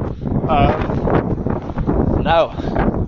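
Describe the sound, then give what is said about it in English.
Strong wind buffets the microphone outdoors in a dense, loud, unbroken roar of low rumble and hiss, with a voice briefly breaking through the gusts. “I absolutely doubt that you can hear me, but feel the wind”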